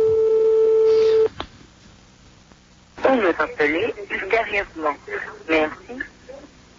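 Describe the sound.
A telephone ringing while waiting for someone to answer: one long, steady ring tone, then a pause and a voice talking.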